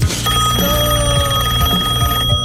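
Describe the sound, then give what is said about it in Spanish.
A telephone rings while a call is being placed. The ring is loud and steady, with a tonal, melodic quality that continues through the whole clip and no talking over it. “Bueno, lo voy a llamar a Umbi, a ver qué carajo quiere. Ah, no, cierto que lo llamo yo.”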